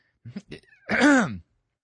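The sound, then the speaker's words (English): Someone clears their throat as if something is caught in it: a couple of short, breathy catches, then one longer, voiced, rasping hack that stops abruptly. “Sorry, something just got caught in my throat.”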